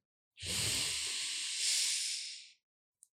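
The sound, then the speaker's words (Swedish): A single long, deep breath during a guided breathing exercise, heard as a steady breathy hiss that holds for about two seconds and then cuts off, followed by a faint brief click. “Ta ett djupt, djupt, djupt, djupt andetag. Och sen ut.”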